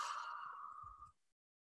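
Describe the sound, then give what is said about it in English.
A deep breath, heard as one long, airy, breathy exhale that holds steady for about a second and then fades out, alone with no talk. “taking a deep breath in here and out.”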